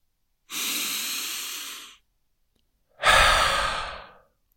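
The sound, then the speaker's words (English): Deep breathing during a guided relaxation exercise: one long airy inhale through the nose, a pause, then a fuller, stronger exhale through the mouth, heard alone without talk. “Inhale. Exhale. In through the nose. Out your mouth.”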